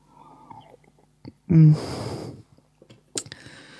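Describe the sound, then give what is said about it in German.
Someone takes a sip of a drink: a short, loud slurping intake, then quieter breathy sounds and a faint click. “ich muss noch einen Schluck nehmen”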